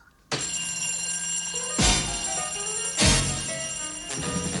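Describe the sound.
An old bell telephone rings with an incoming call, a loud metallic jangle that starts abruptly and keeps ringing without a break, surging louder a few times.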